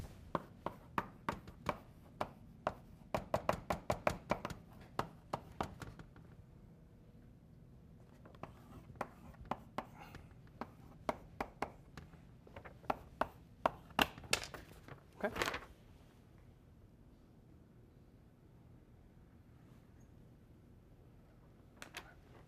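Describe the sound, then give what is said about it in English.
Writing on a board during a lecture makes many quiet, sharp taps and short scratches in irregular bursts. They thin out and stop toward the end, leaving near-silence. “You can start thinking about it while I write out some possibilities that we can vote for.”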